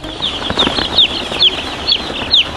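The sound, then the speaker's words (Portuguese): Chickens cluck softly in an aviary while a newly hatched chick on its first day peeps six times in high, downward-sliding chirps at a steady pace. “Esse pintinho saiu da casca hoje. É o primeiro dia de vida dele.”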